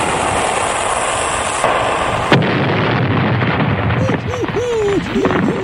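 A weapon-fire and explosion sound effect for a mock ship-sinking game: loud, continuous roaring noise breaks into a sharp bang partway through, followed by a lower, rumbling wash.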